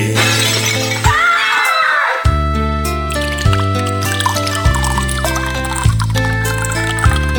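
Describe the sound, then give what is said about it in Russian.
A glass bottle smashes against a tree stump, a loud, sharp shatter followed by a spray of tinkling fragments, heard over a song with a steady bass line. “бутылку разбивал о пень, бутылку разбивал о”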